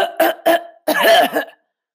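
Coughing comes as a few short, harsh bursts, followed by a longer, rougher, partly voiced cough that trails off into silence.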